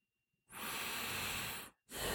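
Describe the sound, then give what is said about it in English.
A deep breath drawn in as a calming exercise: one long, steady, airy inhalation lasting over a second, followed after a brief pause by the start of another breath. “Breathe in deeply.”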